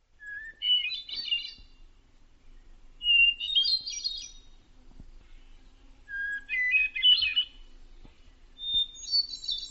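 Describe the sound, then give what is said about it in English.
Hermit thrush song: four separate phrases, each opening on a clear, pure whistled note and then breaking into higher, fluty, rippling trills, with short silences between phrases over a faint, quiet background. “Coming up now, the hermit thrush. Let's hear.”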